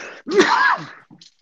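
A sneeze erupts as one loud, voiced burst lasting about half a second and trailing off, followed by a faint short breath sound.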